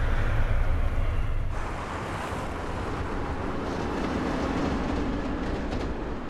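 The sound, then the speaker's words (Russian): A train crosses a thin arched bridge over water, making a continuous loud rumbling roar that is slightly stronger at the start and then holds steady throughout. “По тонкому арочному мосту, который светится синей линией и отражается в воде, проезжает поезд.”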